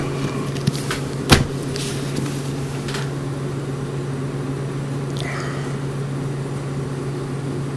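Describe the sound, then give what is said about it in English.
An ice machine running with a steady low hum and a constant tonal drone, broken by a single louder clunk early on. “Is that the ice machine? Yeah. Take it, big guy. Ice machine's giving us a cue.”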